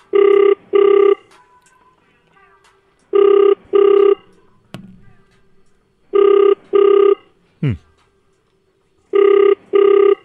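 Ringback tone of an outgoing telephone call, heard as four loud double rings, each pair of steady buzzing tones separated by a few seconds of quiet.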